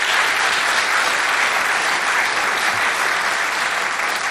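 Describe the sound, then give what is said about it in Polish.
Loud, full audience applause at a music awards ceremony, a thick, unbroken roar of countless clapping hands that stays level from start to finish. “poprosimy może tak o oklaski dla wszystkich. Zbiorcze.”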